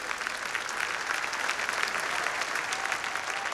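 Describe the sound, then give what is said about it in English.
A church audience applauds, giving a steady, dense wash of clapping that holds at an even loudness from start to finish. “Give the Lord a hand of praise. Would you do it?”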